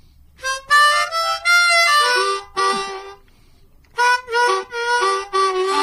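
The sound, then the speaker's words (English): Regular harmonica played solo in short, punchy phrases of bright chords and held notes, with a brief silent pause midway before more clipped chord blasts. “It's an original, but it uses a harmonica that I'll just play a regular harmonica.”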